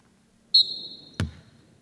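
A basketball bouncing on the court during a women's game as the ball is brought across the timeline: a sustained high squeal, then a single dull, solid bounce that quickly dies away.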